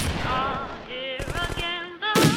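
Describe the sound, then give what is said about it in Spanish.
Gunshots at the Fort Frolic shooting gallery in 1958: a rapid burst of shots in the middle, then a single louder blast near the end, alongside sustained tones. “Navidad bajo el mar. Galería de tiro de Fort Frolic, 1958.”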